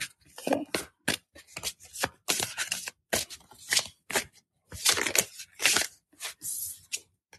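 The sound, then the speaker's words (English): Cards are shuffled and drawn for a reading, giving many short, dry, papery riffling bursts in an irregular rhythm separated by brief silences. “So I can pull some live cards for you if you have a question too.”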